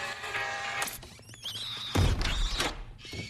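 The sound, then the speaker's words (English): A heavy door slams shut and bolts in a building's janitor storeroom, giving a low, solid thud midway through, surrounded by faint mechanical clanks and rattles. “The doors slammed and bolted behind it.”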